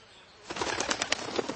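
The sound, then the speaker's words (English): Wings beat as a wild duck flies up from a broad, reedy fen, a quiet start giving way to a burst of quick, soft, rapid flapping that continues to the end. “All at once, a wild duck flew up. Another followed, and soon, over the whole marsh, a great cloud of birds hung screaming and circling in the air.”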